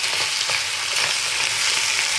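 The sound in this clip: Food frying and sizzling in a kitchen, a steady, dense crackling hiss that stays even in loudness throughout, with no voices.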